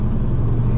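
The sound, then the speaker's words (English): Low, steady engine rumble of a car driving into a small mountain town, an even drone with no clear revving and no voices. “I'm driving into the tiny mountain town of Wise, Virginia”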